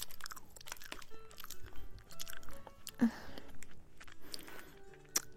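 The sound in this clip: Crunchy sachima pastry being eaten, with many quiet, irregular crisp crunches and chewing sounds that come in short bursts.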